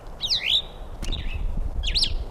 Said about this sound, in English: Two females present, evidently. Two quiet birds, one singing.